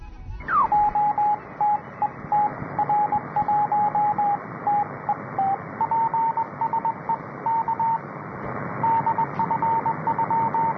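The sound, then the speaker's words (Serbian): A Morse code general call from a Russian radio amateur: a steady, high-pitched tone keyed in many rapid dots and dashes over constant radio hiss, opening with a brief downward chirp. “Evo, upravo ste imali priliku da snimite, ovo je opšti poziv naše kolege iz Rusije. Upravo je od radiotelegrafijom takozvani opšti poziv.”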